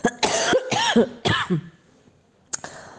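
Several hard, rasping coughs from a person recovering from a respiratory illness: a quick cluster of loud bursts, some voiced and throaty, then a pause before one last shorter cough.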